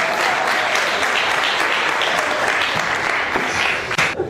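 An audience claps during a rabbi's sermon, with sustained, dense applause that holds steady and then thins and tails off near the end.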